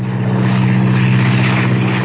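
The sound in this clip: A propeller airplane drones in flight with a loud, steady engine hum and a strong low tone that runs unbroken from start to finish.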